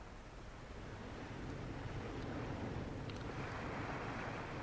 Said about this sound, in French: Ce bruit qu'on entend, c'est la mer. Je dis que ce bruit qu'on entend, c'est la mer. Nous sommes assis sur la grève.